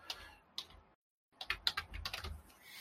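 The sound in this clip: Typing on a computer keyboard: faint clicking keystrokes, a short pause in near silence, then a quicker run of many overlapping key taps.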